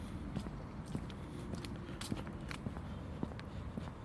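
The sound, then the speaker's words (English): Footsteps of a person on a walk outdoors on an autumn morning among beech trees, faint but evenly spaced, about seven steady steps in a regular walking rhythm. “So I've got to go to work later on, so I thought I'd come for a walk. Seems a shame not to come out in a day like today.”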